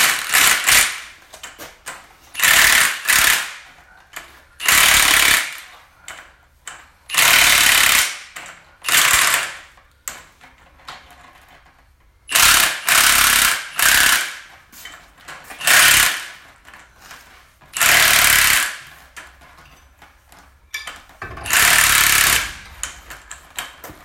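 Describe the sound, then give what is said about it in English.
A powered torquing tool tightens bolts down in many loud, rattling mechanical bursts, each lasting a second or so and separated by quiet pauses. “You're going to tighten them down with the tight torquing device right there? The big torquing device?”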